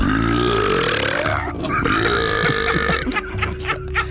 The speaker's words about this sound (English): This guy can swallow a bunch of air and burp it back out at you in a disgusting trumpet blast.